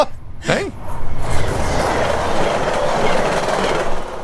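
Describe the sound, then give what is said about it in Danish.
A TGV high-speed train running from Geneva to Paris: a loud, steady roar of rail noise with a rhythmic clatter of wheels underneath that continues evenly throughout. “Det var TGV-toget til Paris fra Genève.”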